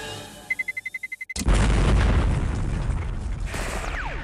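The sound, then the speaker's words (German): A bomb in the video game Counter-Strike counts down with a quick series of high electronic beeps that speed up. Then a loud explosion erupts into a long, roaring blast that slowly fades. “Die Terroristen versuchen, eine Bombe zu legen, die Polizisten müssen das verhindern. The bomb is ticking down.”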